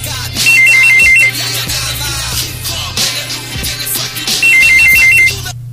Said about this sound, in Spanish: Ah, nos están llamando por teléfono.